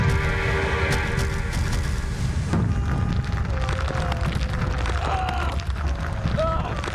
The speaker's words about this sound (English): Charges exploded before they could release him.